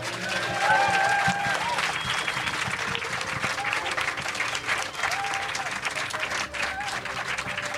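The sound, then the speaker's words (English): Warm applause and cheering from the audience at Green Man Festival, dense clapping that swells early then holds steady throughout, with a voice briefly heard over it at the start. “Before we go, though, I want you to give a huge round of applause to our wonderful guests.”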